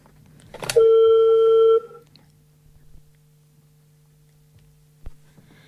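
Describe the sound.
A single long, steady telephone tone as a call comes through, lasting about a second, then near silence over a faint low hum with one sharp click near the end.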